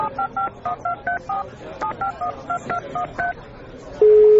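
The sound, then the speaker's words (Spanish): Telephone keypad tones as someone dials a property owner: two quick runs of seven short beeps each, then a steady continuous line tone begins. “tengo que llamar al propietario, así que voy a dar un toque ahora.”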